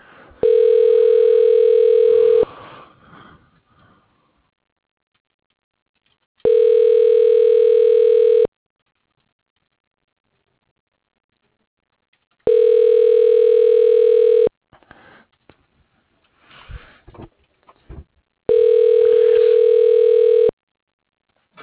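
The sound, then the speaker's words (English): Telephone ringback tone heard while an extension is dialed: a steady mid-pitched electronic tone in four even two-second bursts, separated by longer pauses that hold faint scattered clicks and noises. “Using the telephone, dialing Bob Moore. Extension 1004.”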